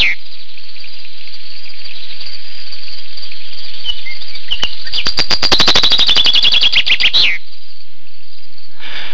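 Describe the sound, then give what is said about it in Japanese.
Finch singing in a song-counting contest, with a few scattered chirps leading into a rapid, bright trill of many repeated notes that stops abruptly, all over a steady background hiss. “なんとも心地のいい鳥の鳴き声ですね。 なんか優雅に鳴いてますね。”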